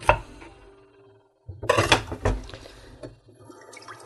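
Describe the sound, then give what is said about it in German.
A knife slices quartered onions into very thin slices, giving a series of crisp, irregular cutting knocks with a short gap before a denser run of cuts. “So, jetzt schneide ich noch die Zwiebeln. Einfach vierteln die Zwiebel und dann in ganz dünne Scheiben.”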